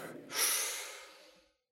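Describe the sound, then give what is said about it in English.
A single deep breath drawn in through the nose and mouth, a soft airy rush that swells quickly, then tapers away over about a second before falling silent. “Let's do this. Breathe in.”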